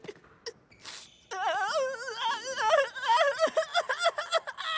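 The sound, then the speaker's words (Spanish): A character cries loudly on a sports court, a sustained wavering wail with sobbing catches that rise and fall in pitch, preceded by a few short sniffs. “no llores en la cancha”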